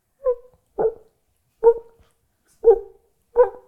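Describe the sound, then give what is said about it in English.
A man imitates a dog barking gently in the distance, voicing five short, soft woof-like barks at uneven intervals, each a brief muffled burst with nothing else heard between them. “I'll do the voice because one of my party tricks is I can do dog in a distance”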